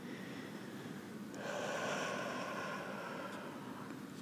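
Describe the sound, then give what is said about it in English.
One deep breath drawn in as a soft, airy hiss. It swells after a moment and holds steadily before easing off. No speech. “So the first thing I'm going to have you do is just take a deep breath here.”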